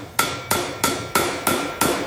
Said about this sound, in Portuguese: é preciso ainda aparar pontas soltas, uns toques de martelo